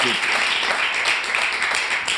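Applause from a television programme audience, a thick, even wash of clapping that stays level throughout without a clear break.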